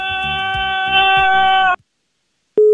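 A phone line tone follows a caller hanging up on an Italian radio call-in show. A sustained harmonic tone cuts off abruptly, and after about a second of silence a single pure, steady beep starts sharply.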